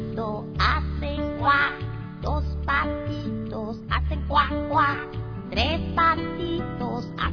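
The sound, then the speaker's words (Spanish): A duckling quacks again and again in short, nasal bursts over a rhythmic tonal backing. “Un patito.”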